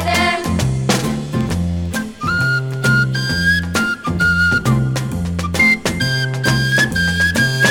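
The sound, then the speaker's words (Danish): Flute playing a bright, clear melody over a steady rhythmic musical backing, with notes held and repeated throughout. “Hvad er det, der siger sådan? Det er en fløjte.”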